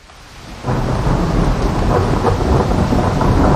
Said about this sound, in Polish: burza. Jako zjawisko atmosferyczne fascynuje meteorologów, jej energię badają fizycy, a nas przeraża lub zachwyca.